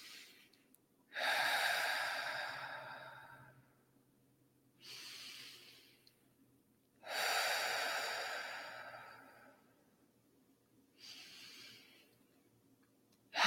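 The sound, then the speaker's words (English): Slow, deep breathing, in through the nose and out through the mouth, during a guided grounding exercise. Two full breath cycles alternate a long, strong airy breath with a shorter, softer one, and a third breath begins at the end, with no talking. “We're going to take 3 deep breaths in through the nose, out through the mouth.”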